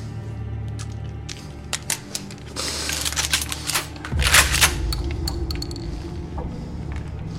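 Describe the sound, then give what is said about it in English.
A gun is reloaded with a series of crisp mechanical clicks and metallic clacks, scattered and fairly quiet over a low steady hum. “She follows him as he reloads the gun.”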